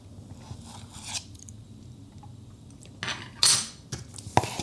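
Spoon scraping and clinking against a dish while someone eats ice cream, a few soft, faint metallic scrapes and taps spread out with quiet gaps between them.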